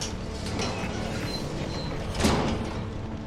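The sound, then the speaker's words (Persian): A door being closed, heard as a dull mechanical slide and then a short thump near the end, set against a steady, fairly loud noisy background. “درو ببن لطفا.”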